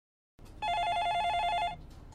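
A single ring of a telephone as a listener calls in to a radio call-in show: one steady, bright electronic trill lasting about a second, alone and fairly clear.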